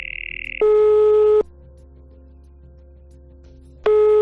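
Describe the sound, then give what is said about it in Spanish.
Ringback tone of an outgoing phone call to a police station in Logroño: a brief higher beep, then a steady mid-pitched ring tone, a long silent pause and the ring tone starting again, with no voices. “lo único que se te ocurre es hacer una llamada. En este caso, la Guardia Civil de Logroño.”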